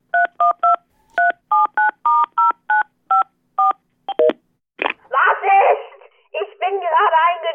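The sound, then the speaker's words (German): Touch-tone keypad beeps as a telephone number is dialed to call a boss: many quick, evenly paced electronic tones, followed by a noisy burst and a voice on the line. “Ich glaube, ich sollte meinen Chef anrufen.”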